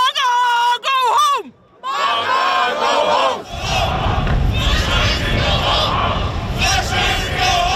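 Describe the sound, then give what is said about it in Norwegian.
Around 150 demonstrators in Trondheim shout at passengers from the cruise ship Silver Dawn. Loud sustained voiced yells come first, then a dense, continuous roar of crowd shouting and cheering. “Det her lyd fra Trondheim I går, for der møtte rundt 150 demonstranter opp for å protestere mot en gruppe av passasjerer på cruiseskipet Silver Dawn.”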